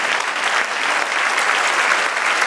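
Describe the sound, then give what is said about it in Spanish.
An audience applauds for the Lord in a church with dense, loud clapping from many hands. The applause is steady and continuous, with no pauses or voices standing out. “A darle un aplauso al Señor.”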